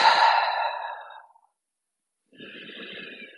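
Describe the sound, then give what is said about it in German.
A forceful exhale through the mouth during a guided breathing exercise: a loud, airy rush that fades over about a second, then a pause and a second, quieter breathy sound. “atme einmal durch den Mund ganz kräftig aus”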